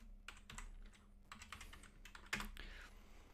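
Typing on a computer keyboard while entering a name into a search: quick, irregular clusters of light key clicks with brief pauses, fairly faint and steady.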